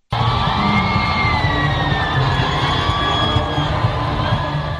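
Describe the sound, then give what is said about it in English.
Crowds of hundreds of thousands cheer Pope Francis as he arrives at Kinshasa's Ndolo Airport: a dense, loud, continuous roar of voices with whoops and yells running through it from start to finish. “Hundreds of thousands of people welcomed Pope Francis as he arrived at Kinshasa's Ndolo Airport on Wednesday before the pontiff delivered a mass to the crowds. The crowd showed their joy while Pope Francis waved to them”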